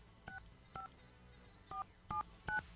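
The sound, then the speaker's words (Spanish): Touch-tone DTMF beeps as a telephone number is dialed: five short dual-pitched tones at uneven intervals, fairly faint over a low steady background hum, with no talk. “Estamos marcando.”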